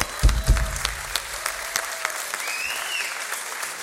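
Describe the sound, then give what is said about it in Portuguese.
An audience applauds with dense, steady clapping; a couple of sharper, louder claps stand out near the start before the applause settles into an even wash. “Palmas para vocês.”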